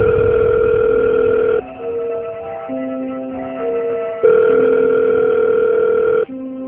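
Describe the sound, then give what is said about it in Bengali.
Steady electronic telephone tones sound as a call is placed. Sustained pure tones change pitch in distinct blocks, and the opening pattern returns a few seconds later. “তিনি তখন আরিফকে phone করেন।”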